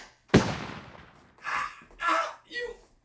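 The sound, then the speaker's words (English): A single sharp gunshot cracks out during a tense confrontation, its loud impact trailing off in a brief decay before a few short vocal sounds follow. “You shot me!”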